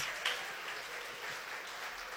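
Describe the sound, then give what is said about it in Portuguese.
Applause from an audience at an evangelical church congress: a steady, fairly faint wash of clapping that continues without a break. “palmas para Jesus.”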